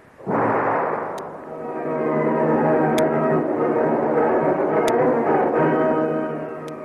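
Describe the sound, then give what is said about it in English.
A bomb explosion sound effect from a radio drama: a sudden loud, broad blast that swells into a long, sustained rumbling roar, tapering slightly at the end, with no voices. “Look out, Commander. He's throwing a bomb.”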